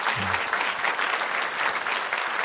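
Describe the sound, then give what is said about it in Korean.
A church audience at a year-end gathering applauds, a steady, even roar of many hands clapping together that continues without a break at moderate loudness. “또 아까 사회에 보아주셨던 조연희 선생님, 귀염둥이 최낙정 집사님, 우리 박수 한번 쳐주시기 바랍니다.”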